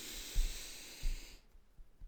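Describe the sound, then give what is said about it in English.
A long, deep breath drawn in during a tapping relaxation exercise, heard as a steady airy hiss that lasts just over a second and then stops. It is quiet and alone. “Taking a really deep breath in here as you keep tapping”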